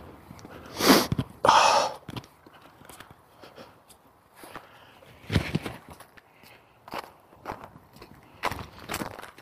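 Footsteps of a person out on a walk, a faint, uneven series of soft scuffing steps with a few louder crunchy treads standing out.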